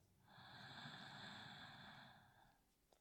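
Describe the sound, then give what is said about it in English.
A single slow, deep breath is taken during a guided breathing practice. The soft, airy rush lasts about two seconds, swelling and then fading away. It is quiet and heard alone. “And we take another breath.”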